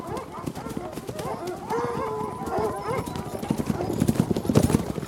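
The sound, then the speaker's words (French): Horses gallop with riders during a hunt, followed by a pack of hounds. Rapid, uneven hoofbeats grow louder toward the end, mixed with high yelping and baying from the dogs. “Les autres cavaliers font demi-tour et se dirigent au galop vers une trouée, suivis par les chiens.”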